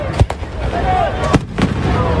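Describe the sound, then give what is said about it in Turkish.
Fireworks go off during a celebration in a capital city. A few sharp bangs punctuate a loud, steady background din. “Kutlamaların en dikkat çeken anı ise havai fişek gösterisi oldu.”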